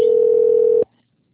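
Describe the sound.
A telephone dial tone plays while a call is being placed: a steady, unbroken single-pitched hum, fairly loud, that cuts off abruptly after under a second, leaving near silence.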